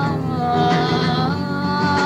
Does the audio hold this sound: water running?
no